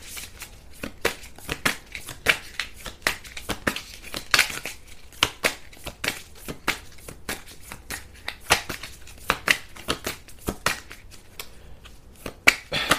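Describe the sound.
A deck of cards with sticky cards being handled and shuffled, giving many irregular crisp snaps, flicks and papery rustles over a quiet background.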